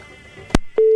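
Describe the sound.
Telephone tone after a call disconnects: a sharp click, then a steady low-pitched tone that holds loud and unbroken to the end, with no talk.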